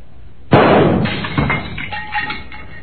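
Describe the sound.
A single loud gunshot smashes a candle holder and a picture, a sharp blast followed by scattered clattering and glassy debris hits that fade out.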